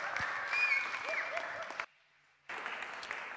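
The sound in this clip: Applause welcoming a guest speaker, a fairly faint, even patter of many hands that cuts out briefly before resuming at the same level.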